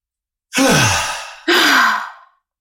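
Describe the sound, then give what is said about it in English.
Deep breathing as a relaxation exercise: one long, loud, airy exhale pushed all the way out, followed at once by a full inhale that draws in steadily and then stops, with no talking. “So we'll exhale all the way out. Inhale to capacity.”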